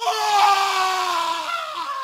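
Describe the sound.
A man's terrified scream rings out as one loud, sustained cry, its strained tone sliding slowly lower over about two seconds.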